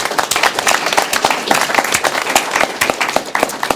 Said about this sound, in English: Thanks to everyone who participated in that effort. Let's give those volunteers a hand.